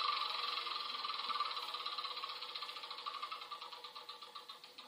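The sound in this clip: Board game spinner whirring through a spin: a rapid train of rattling clicks that gradually slows, the ticks spacing out and softening as the wheel winds down.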